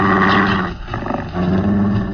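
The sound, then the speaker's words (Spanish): A deep, menacing werewolf growl, a sound effect in a Spanish-language radio drama: loud, rough and sustained, easing briefly in the middle before swelling back up. “el impresionante gruñido que congela la sangre en las venas del pequeño Solín”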